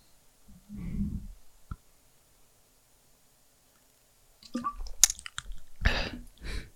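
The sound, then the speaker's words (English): Mouth sounds of someone tasting a pineapple drink: faint soft rustles and a single click early on, then a close cluster of wet sips, smacks and clicking noises after a quiet pause. “I'm going to taste the pineapple now.”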